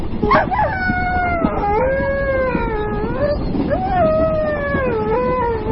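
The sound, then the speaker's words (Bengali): An injured dog yelps and cries in pain, letting out a continuous, loud, wavering whine that slides up and down in pitch through several drawn-out howl-like sweeps. “কুকুরটা যেভাবে চেঁচাচ্ছে তাতে মনে হচ্ছে সে ভয়ানক জখম হয়েছে”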